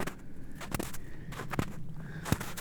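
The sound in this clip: Footsteps crunch across a small patch of snow while climbing uphill: a few soft, scattered steps over a faint, steady background hush.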